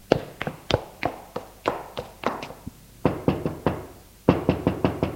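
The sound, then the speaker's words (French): Knocking on a door: many sharp, loud raps arrive in three quick bursts separated by short pauses, with no voices alongside. “Ensuite, des pas, et on frappe à sa porte.”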